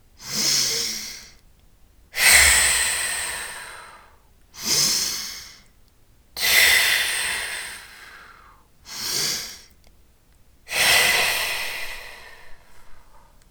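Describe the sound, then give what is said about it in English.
Six loud breath bursts come in a steady rhythm during a breathing exercise. Shorter sharp inhales alternate with long, forceful, airy exhales through the mouth, with near silence between them. “and then you'll exhale forcefully through the mouth. We'll do it 3 times together, and then we'll rest. Ready? Let your exhale release.”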